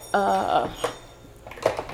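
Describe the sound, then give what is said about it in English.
Dishes clink and clatter as they are washed after closing time at a tea shop, with a few sharp knocks separated by quieter pauses. “So we're doing all of our evening tasks to get out of here for the evening. I've got a million dishes to wash,”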